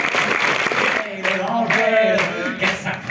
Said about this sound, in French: On peut les applaudir.